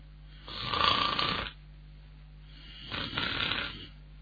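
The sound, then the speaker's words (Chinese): Two slow snores from a tired man asleep on a chair in the outer room, each a rough, breathy rumble of about a second, separated by a quiet pause. “徐良把脑袋伸出来听了听外屋的动静，一听啊，有打呼噜的声”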